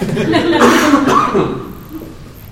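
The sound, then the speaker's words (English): Coughing after choking on nothing mid-sentence: a few loud, rough coughs and throat-clearing sounds, loudest early and tapering off into quieter breathy sounds. “excuse me. As I choke on nothing.”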